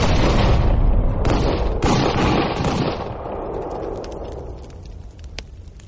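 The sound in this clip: A rifle volley fired by legionnaires crashes out as a loud, dense roar of gunfire lasting a few seconds, then thins into a fading rumble broken by scattered sharp cracks.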